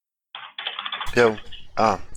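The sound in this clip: Typing on a computer keyboard while entering a link into a shared online pad: a quick, uneven run of sharp key clicks, with a voice-like tone at the start.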